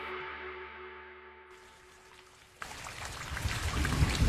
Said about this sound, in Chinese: 吧嗒吧嗒，轻柔的雨滴淅淅沥沥落下，没多久便汇聚成一场呼啸的山雨